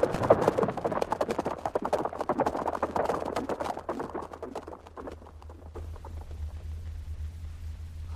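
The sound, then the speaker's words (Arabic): Galloping hoofbeats of a horse urged to flee a valley at night, with rapid, dense thuds loud for the first five seconds, then easing into a quieter, steady low rumble. “وألهب الجواد فصار، ثم انطلق كالإعصار، وما زال ينهب الأرض ويسرع في الركض”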